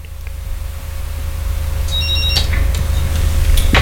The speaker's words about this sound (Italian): ormai ecco la chiamata, ecco la chiamata.